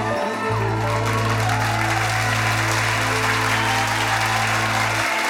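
Dense, loud audience applause during a Punjabi song, continuing steadily throughout over sustained low instrumental notes.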